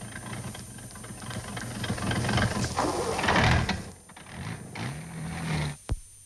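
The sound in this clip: A motor car engine cranked after standing in the cold, sputtering and churning unevenly with a rising, struggling roar, then dropping away to a brief whine and a sharp final thump.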